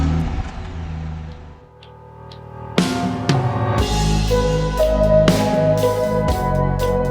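A car drives off. After a quieter stretch its engine surges into a loud, deep roar and revs, staying strong to the end.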